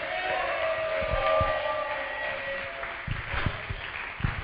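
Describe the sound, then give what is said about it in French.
Congregation cheering and shouting for joy as a church welcomes its senior pastor, a dense, steady roar of crowd noise with raised voices mixed in. “j'aimerais que tu te lèves et sur vos acclamations, poussons des cris de joie alors que nous recevons notre pasteur principal”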